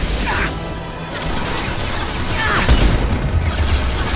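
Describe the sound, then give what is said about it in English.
Rocket hit in a video game: loud, continuous crashing and roaring blast noise that swells again past the midpoint with a whooshing rush. “Ow, ow, that's a rocket.”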